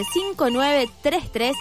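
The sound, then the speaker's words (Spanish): Telephone ringtone for an incoming call at a photo printing business, a melodic tonal ring repeating in a few short bursts. “Ahí nos están llamando.”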